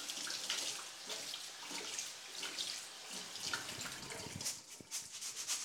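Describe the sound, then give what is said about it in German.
Rice being rinsed under running tap water in a sink to wash off excess starch, a steady splashing rush with small surges and flicks of water throughout, no talking. “dann waschen wir den Reis, um die überschüssige Stärke abzuwaschen.”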